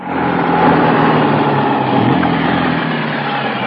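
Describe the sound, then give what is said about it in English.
Engine drone of a messenger's vehicle driving up just after a landing at Catania, Italy, a continuous rough, mid-pitched rumble that holds steady and fairly loud throughout, with no voices. “Yes, it was at this point that a messenger drove up.”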